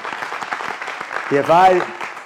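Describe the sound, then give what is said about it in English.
An audience claps during a lively church service, a steady spatter of handclaps running under voices, with a bright whoop rising above the crowd near the middle. “Now, clap real good. Come on, do it.”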